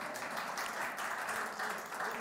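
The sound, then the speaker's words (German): Applause from an audience breaking out during a church service, a dense, steady patter of many hands clapping that stays at an even level throughout. “Dann ermutigt sie mal. Zwischenbeifall, wie sie es macht. Bravo, bravo.”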